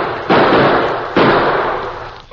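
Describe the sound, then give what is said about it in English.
Two loud gunshots fired at a man in the dark, each a sharp, heavy blast followed by a long, gradually fading roar, the second coming just under a second after the first. “Let him have it. We got no friends around here. Fire on him.”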